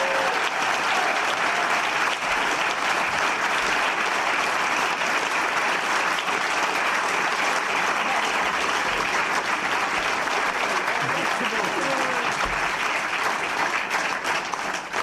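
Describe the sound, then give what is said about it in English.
Live audience applause at Sheffield Hallam University for a snooker panel: a dense, even wash of clapping that holds at full strength for the whole stretch. “So big hand for Steve Davis, Barry Hearn and Sean Murphy.”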